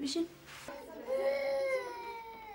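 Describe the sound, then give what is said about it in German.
A small girl cries: brief whimpering sobs break into a sustained, wavering wail that tapers off. “Oh, warum weint denn meine Kleine?”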